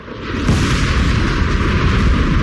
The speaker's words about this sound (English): Then the loud crack of a sonic boom rent the atmosphere,